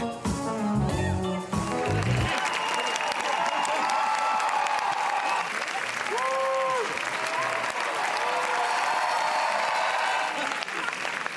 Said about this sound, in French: Ça, c'est sans doute la plus longue ovation de l'histoire du Festival de Cannes avant la projection.